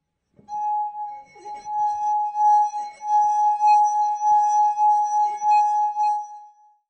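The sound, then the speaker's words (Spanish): A finger rubbed around the rim of a wine glass holding liquid gives a pure, sustained ringing tone. It stays at one steady pitch for about six seconds, swelling and fading in gentle pulses, alone and loud. “una copa con líquido enfrente y pasando nuestros dedos por el borde, generamos un sonido muy particular e hipnotizante”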